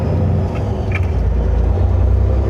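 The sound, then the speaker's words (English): Deep, loud engine rumble from a 2007 Freightliner truck with a Cat C-15 diesel engine, accelerating and engine braking, a dense, steady roar that holds throughout with no voices. “It's my 07 Freightliner with a C-15 Cat accelerating and jaking.”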